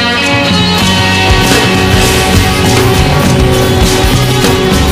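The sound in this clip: A dense wall of music from five different songs playing at once, overlapping into one loud, continuous, cluttered blend of beats, instruments and harmonies with no single song standing out.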